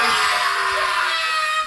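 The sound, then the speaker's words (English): A person lets out a loud, sustained, high-pitched scream to release stress, holding steady and harsh for nearly two seconds with no talking around it. “Everyone needs to scream. You go first.”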